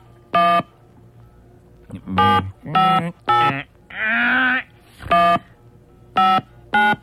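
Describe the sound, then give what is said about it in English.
Telephone keypad dialing tones sound as a number is punched in: several short, loud electronic beeps separated by uneven gaps, with one longer, rougher tone near the middle. “So, let me dial that thing, see how fast I can dial that thing.”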